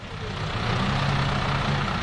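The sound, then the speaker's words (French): Shuttle bus arriving at the Lugrin landing stage near Évian, with a steady low engine rumble and broad road noise that holds constant throughout, no voices. “7h moins quart, un bus navette arrive au débarcadère de Lugrin, commune située à 5 km d'Évian.”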